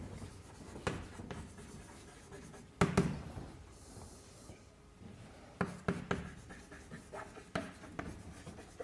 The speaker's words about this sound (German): also ich schreibe das nur so kryptisch dahin, Aufgaben mit nicht messbaren Funktionen